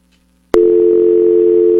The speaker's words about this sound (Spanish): Ni la llamada entra, a ver. Vamos a ver. Bueno, vuelvo a marcar entonces, por favor.